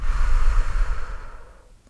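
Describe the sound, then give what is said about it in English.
A long exhale through the mouth while pulling in the stomach during a calming breathing exercise, a steady breathy rush that fades away over about two seconds with no talking. “Pull in your stomach while exhaling through your mouth.”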